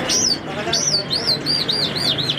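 Ornamental birds chirping at a bird seller's shop in Kandahar: loud, high, looping chirps, first a few spaced calls and then a quicker run of repeated tweets over a low background hum.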